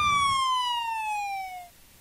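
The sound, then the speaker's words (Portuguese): A police patrol car siren sounds as a single bright, wailing tone that slides steadily downward in pitch, then cuts out and leaves faint background noise. “eu ouvi barulho de patrulhinha, maestro.”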